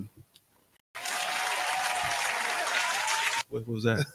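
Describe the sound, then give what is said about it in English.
Applause marking the first presidential pardon: a dense, steady burst of clapping lasts about two and a half seconds. Brief talk comes just before it, and voices resume right after. “We had to clap, man. The first ever presidential pardon. Yes, I'm just saying. Giving a round of applause.”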